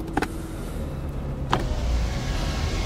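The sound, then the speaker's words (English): A car's engine rumbles steadily as the car pulls away, with a few light clicks and a faint mechanical whirr. “Now, if you just drive off, please. But I'm not married. Drive off.”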